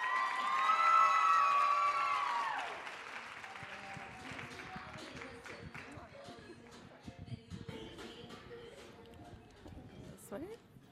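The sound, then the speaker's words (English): An audience applauds and cheers as a speaker comes on stage. The clapping is loud and dense at first, then gradually thins and fades as scattered voices continue. “So give her a big hand. Here she is.”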